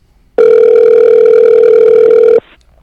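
A telephone ringback tone plays while calling someone: one steady, unbroken mid-pitched tone lasting about two seconds, loud and alone, then cutting off into quiet.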